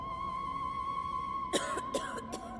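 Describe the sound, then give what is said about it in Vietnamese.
A sudden fit of harsh, hoarse coughing breaks out: three sharp bursts over a faint steady background hum, following a quiet stretch. “Có tiếng ho sặc sụa bất thình lình vang lên, làm cho anh giật bắn cả người.”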